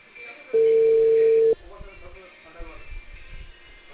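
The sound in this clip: An outgoing telephone call gives a single steady ringback tone of about a second over the line, followed by muffled voices talking.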